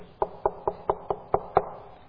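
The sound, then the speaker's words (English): Knocking on a door: seven evenly spaced, firm raps in a steady rhythm, each with a short hollow ring, and no voices. “But a knock came on the door.”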